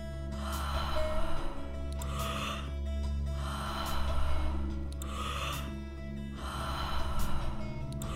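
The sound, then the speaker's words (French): Deep circular breathing during a guided breathing exercise, with loud, rhythmic breaths rising and falling in regular cycles over a sustained low drone. “Faites de belles respirations circulaires et profondes.”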